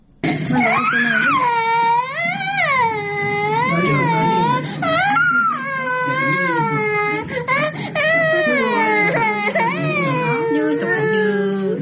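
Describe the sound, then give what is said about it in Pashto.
Young children crying from hunger in a poor, malnourished household: sustained high wailing sobs that rise and fall in pitch, loud and nearly continuous throughout. “د ماشومانو دا ژړاوي د دردونو او یا هم د کوم چا له لوري د وهلو څخه نه دي، بلکې دا ماشومان د ډوډۍ او یا هم د خوړو د نشتوالي له امله ژاړي”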